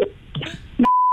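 A telephone beep as a prank call is placed: brief, scattered noises, then a single steady, high tone that holds to the end.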